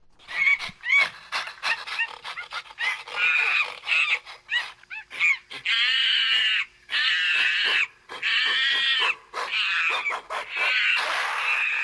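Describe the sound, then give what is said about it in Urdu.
Gorillas fighting over food in a Cameroon national park, many sharp squeals and screams in rapid bursts that give way to longer, loud sustained shrieks separated by short gaps. “انوگے France کے نزدیک گوریلے خوراک حاصل کرنے کے لیے لڑتے ہیں۔”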